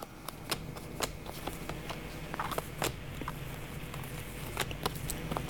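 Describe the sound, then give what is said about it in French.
Tarot cards are shuffled and drawn, giving many quick, crisp snaps and papery riffles in a steady, fairly faint stream with no voices. “je vais encore juste tirer quelques cartes.”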